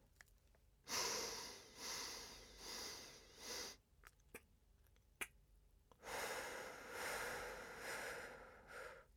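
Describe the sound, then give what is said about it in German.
Slow, quiet breathing during a guided breathing exercise: a long airy breath, a short pause, then another long breath, with faint clicks between. “Und beim nächsten Mal setze ich die kleine Pause zwischen der Einatmen und des Ausatmens.”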